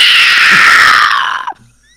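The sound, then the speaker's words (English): A person leaning into a microphone lets out a loud, piercing, high-pitched scream like a raptor screech. The single sustained shriek lasts about a second and a half, dips slightly in pitch, then cuts off abruptly. “sorry, was that loud? That was unbelievable what you just did. That was like a raptor screech through my eardrums.”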